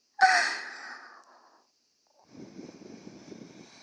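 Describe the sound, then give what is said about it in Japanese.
Breath is blown softly into the ear in one breathy puff that starts strong and fades within about a second. After a short silence, a quieter, longer stretch of soft airy noise follows. “まるでアリちゃんが隣にいて、本当にお耳をふぅふぅされてるみたいだね。”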